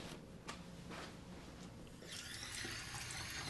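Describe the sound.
Tap water runs into a sink as hands are washed, a steady hiss of flowing water that grows louder and fuller partway through.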